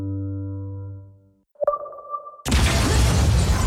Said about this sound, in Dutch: Explosie in het flatgebouw